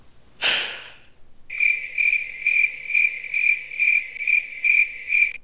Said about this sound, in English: Cricket.